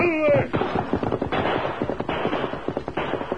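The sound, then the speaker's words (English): Rapid gunfire during a canyon shootout as a gang fires on a rider, many sharp cracking shots in quick, uneven succession, loud and dense throughout. “With the kid down from a sledgehammer blow and Jake and Joe disabled by fast shots, the Lone Ranger”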